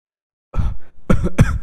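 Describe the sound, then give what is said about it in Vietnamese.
A man coughs heavily in a few harsh, raspy bursts, the first one alone and the later ones coming close together, with short breaths between them. “vừa nói vừa ho sặc sụa”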